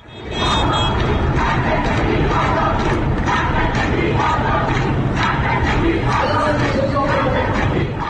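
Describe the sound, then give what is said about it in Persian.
Crowd of protesting lawyers chanting and shouting in unison outside the central bar association building in Tehran. The massed voices are loud and continuous from start to finish, with rhythmic surges in the chant. “این صدای وکلای دادگستری است. مقابل ساختمان کانون وکلای دادگستری مرکز در تهران”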